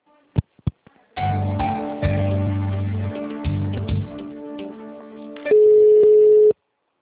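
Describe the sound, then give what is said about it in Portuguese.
Telephone line sounds from a call to an occupied extension: a few short clicks, then a long buzzing tone broken by brief gaps, ending in a steady, louder higher tone that cuts off abruptly. “Alô, o ramal lá está ocupado.”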